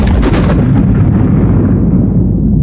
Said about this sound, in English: dropped its payload above Frenchman Flat. And the device detonated at a height of 1,435 feet above the target.